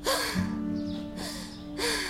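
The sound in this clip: A woman gasps sharply as she jolts awake from a nightmare in her bedroom, with a few quick, breathy intakes of air standing out against a steady low background.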